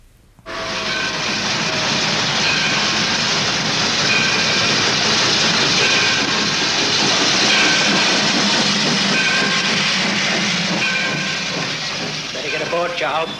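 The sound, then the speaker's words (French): A train at a station gives a steady, loud hiss and rumble with faint rhythmic clatter. The noise holds unbroken for the full length and swells slightly toward the end. “Roger, Ann, come see the train. Come on, Charlie. You can see the get off.”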